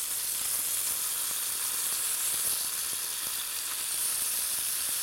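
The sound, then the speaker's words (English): Sausages brown in a little oil in a hot pan, a steady, dense sizzle of continuous hiss and scattered crackles with no talk. “I'm going to add just a tiny bit more oil and I'm going to start browning off my sausages. All right, and then just get your sausages in.”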